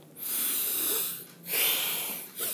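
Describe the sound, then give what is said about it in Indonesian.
Heavy, laboured breathing from a person short of breath: long, noisy, wheezing breaths, two full ones followed by the start of a third, fairly faint and with no talk. “sore ini gue sesak banget ya uh, jadi hela nafasnya terus terusan”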